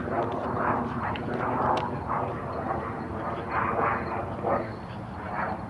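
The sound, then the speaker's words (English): A big jet airliner flying, heard as a low, continuous roar with a broad rumbling body and some wavering tones over several seconds. “Plane, jet, big old jet airline.”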